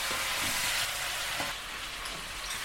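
Vegetables and a bay leaf sizzle in a pot as they are stirred, a dense, steady frying hiss with a few soft scraping pulses from the stirring.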